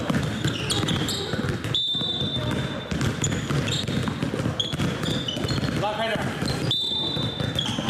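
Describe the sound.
Basketballs bounce on a mountain sports ground at a children's basketball summer camp, with many quick, overlapping thuds in an uneven rhythm, a few thin high squeaks, and voices mixed in throughout.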